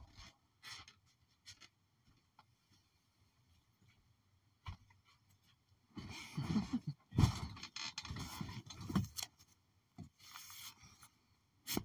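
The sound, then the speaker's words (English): A back door is opened: a few faint clicks and handling knocks come first, then a louder stretch of creaking, rattling mechanism noise with sharp clunks before it quiets again. “We're gonna use the back door. The back door? Yeah. Open the back door then.”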